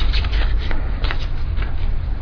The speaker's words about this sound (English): I'm thinking about your question as you're shuffling.